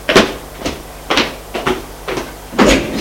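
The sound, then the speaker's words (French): A door slams with a dull wooden bang, heard as six heavy, evenly spaced thuds, each sharp at the start and quickly fading, alone without voices. “en claquant la porte.”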